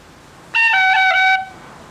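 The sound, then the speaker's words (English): A short, fast melodic phrase in a reel style: a note A, then F sharp, then an F sharp roll. The pure, bright notes last under a second, a higher note dropping to a lower one that flutters briefly with ornamentation before stopping. “The phrase A F sharp followed by an F sharp roll would sound like this.”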